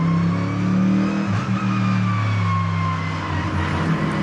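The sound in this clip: Loud, sustained engine roar from a Mercedes-AMG GT3 race car at full throttle as it pulls out of the pits at the Albi circuit. The tone is steady and rich in harmonics, with no distinct gear changes.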